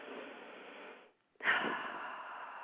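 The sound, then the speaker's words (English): A deep breath taken during a guided relaxation: a slow, quiet inhale lasting about a second, a brief silence, then a longer and slightly louder exhale, with no talking. “So I invite you to close your eyes and take a deep breath with me.”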